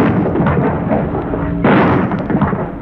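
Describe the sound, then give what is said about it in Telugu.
Two bombs explode one after another in a legislative assembly chamber. A dense, roaring blast noise fills the whole stretch, and a second, louder surge bursts in about midway. “ఒకదాని తర్వాత ఒకటి 2 బాంబులు పేలాయి.”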